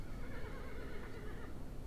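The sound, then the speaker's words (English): A horse neighing far away: a faint, quavering whinny with a wavering pitch over a steady low background hiss. “That was a horse. It was very far away. This one. It's a very far away horse.”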